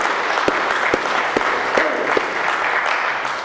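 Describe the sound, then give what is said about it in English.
Audience applause at a church service: dense, steady clapping throughout, with a few louder individual claps standing out. “Welcome back to God's family. Give him a hand tonight.”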